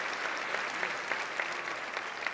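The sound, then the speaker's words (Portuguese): An audience applauding during a church worship service. The applause is faint and steady, with scattered louder claps rising out of it throughout. No voices are heard. “Levanta tua mão e aplauda Jesus.”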